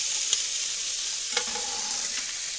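Food sizzles in a pan over medium heat, a steady bright hiss of frying with a few faint clicks from stirring, quiet and continuous with no voices.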